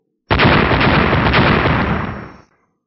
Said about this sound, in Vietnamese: Ba tiếng nổ đồng thời vang lên